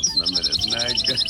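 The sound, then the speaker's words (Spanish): Bird song, a bright high-pitched series of rapid repeated chirps and tweets running steadily throughout, with softer lower tones beneath. “este es el canto de un pájaro que no es, no sé si será chileno o no.”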